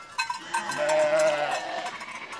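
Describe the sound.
Sheep in a flock following walkers in Rollag, Norway, bleat in drawn-out, wavering calls while a cowbell clanks intermittently.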